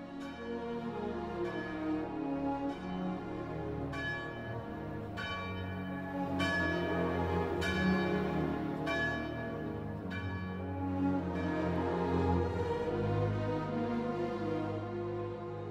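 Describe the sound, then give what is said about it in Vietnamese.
A church bell tolls to call parishioners to evening prayer. Its slow, regular strokes ring out steadily, each resonant tone overlapping the next across a long series. “Sau lưng anh, một hồi chuông nhà thờ vừa cất lên, nhắc nhở giáo dân đã đến lúc tụ tập đọc kinh chiều.”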